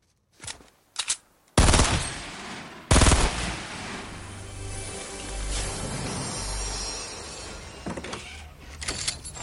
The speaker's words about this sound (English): The Fortnite phenomenon. Let's hear it again. Here it is from YouTube. The player fires a gun as opponents loot a chest.